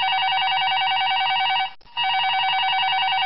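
A telephone rings with an incoming call in a radio studio, a loud, bright electronic ring tone that holds steady, breaks off briefly once, then resumes at the same pitch and level.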